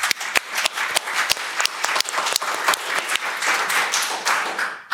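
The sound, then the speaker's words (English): An audience applauds during a panel debate about government and net zero, with dense, sustained clapping that runs loud and steady throughout. “I think, Jeff, you've received two audience applauses, and Karen, you've now got one.”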